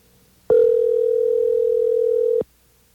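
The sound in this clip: A telephone dial tone sounds after a number is dialed. It is one steady, loud, mid-pitched tone that lasts about two seconds, then starts and stops abruptly with no other sound around it.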